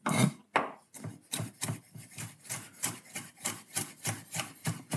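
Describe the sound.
Leeks, carrots and celery are chopped into small pieces with a knife on a kitchen board: many quick, even cutting strokes in a steady rhythm, fairly faint and with no talk.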